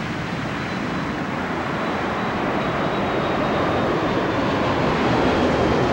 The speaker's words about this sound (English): A Chinese soldier patrols the tarmac as the flight lifts off from the Beijing airport.